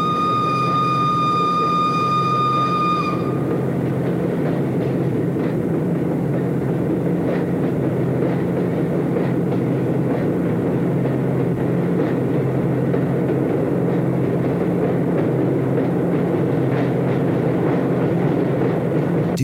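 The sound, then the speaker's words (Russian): A train rolls along railway tracks with a steady, loud rumble and broad rushing noise for the whole stretch. A high, steady tone rings over it for the first few seconds, then fades out. “Hey Lenin, is it a train loaded with missiles and nuclear weapons on the way to the Chinese border?”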